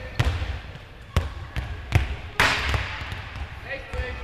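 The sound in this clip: Handballs strike a handball goal during a school throwing-speed test with a radar gun. They land as a series of sharp, quiet thuds at uneven intervals, one slightly heavier than the rest.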